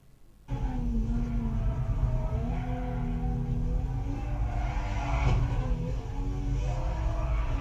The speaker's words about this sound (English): So this one right here, I'm going to talk about a little bit. We'll play the video first and talk about it.